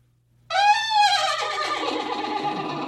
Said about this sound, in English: what do you think of this when the horse neighs?